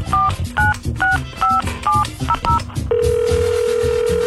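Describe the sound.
Telephone call being placed: several crisp keypad tones beep in quick succession, then a loud, steady tone holds unbroken as the line rings out.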